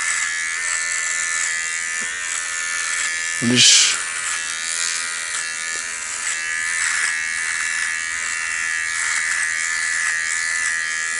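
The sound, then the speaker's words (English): An electric shaver buzzes steadily and loudly throughout as head hair is shaved off and a moustache is left, with a voice talking over the constant whine. “I'm just shaving up dirt. I'm shaving up dirt.”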